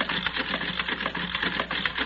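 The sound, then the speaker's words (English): A card-sorting machine runs with a steady, dense whirring clatter, even in loudness and heard on its own. “Now we'll set the machine running.”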